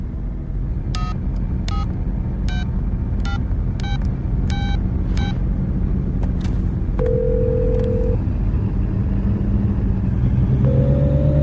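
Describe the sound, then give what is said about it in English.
Touch-tone telephone dialing: seven short, bright beeps in a quick, slightly uneven run over a steady low rumble, followed later by a couple of longer held tones. “Call me. Dial your number. Go ahead.”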